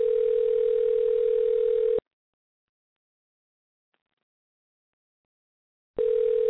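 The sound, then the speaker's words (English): A ringback tone on an outgoing telephone call: a steady, fairly low purring tone lasts about two seconds, then four seconds of silence, then the tone starts again. “that's what, the third ring? Are you counting? I don't know if you can hear the rings.”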